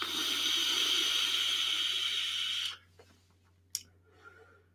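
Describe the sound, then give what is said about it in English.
Vape coil sizzling as e-liquid spits during a long draw at 100 watts, a loud, steady crackling hiss that cuts off sharply, followed by a few faint clicks and pops in near quiet. “Now a little bit started to spit. Actually got a little droplets of liquid in my mouth at 100 watts.”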